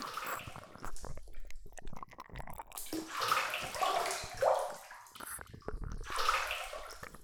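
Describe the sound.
Water in a hot bath with hot-spring bath powder added, someone getting into the tub: faint, continuous sloshing and swishing with soft splashes and a few gurgles, no voices.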